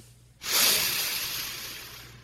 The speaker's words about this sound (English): Let's get some air in there. Let's take a deep breath in.